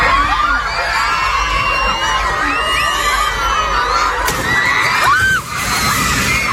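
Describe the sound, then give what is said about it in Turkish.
Schoolchildren at a primary school shout and scream in panic during a violent earthquake that collapsed the school roof, a loud, dense, unbroken clamour of young voices with high cries and one sharp bang-like burst. “Şiddetli deprem bir ilkokulu da vurdu. Okulun çatısı çöktü. Öğrencilerin korkudan bahçeye çıktığı ve ileri geri sallandığı böyle kaydedildi.”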